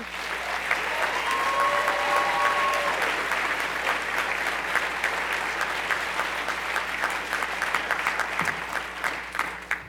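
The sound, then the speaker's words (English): Audience applause welcoming a speaker to the stage at an event on drug policy reform, a full, steady wash of clapping that carries on throughout and thins into looser individual claps toward the end. “Please join me in welcoming the amazing Deborah Peterson Small.”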